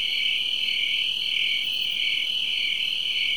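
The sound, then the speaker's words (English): Loud, shrill cricket chirping on a summer night in the countryside forms a continuous high-pitched trill with a faint pulsing waver, steady and unbroken with no voices. “Particularly that one insect you just heard making a racket.”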